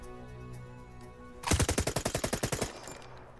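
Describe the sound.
Automatic rifle fire from a trench firing position at a target: one rapid burst of many sharp, loud shots in quick, even succession, with no talk.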